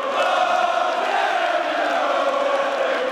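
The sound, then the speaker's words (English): Thousands of youngsters in a concert audience chant together, a steady, loud, continuous mass of voices that holds at an even level throughout. “Thousands of youngsters in the audience began to chant.”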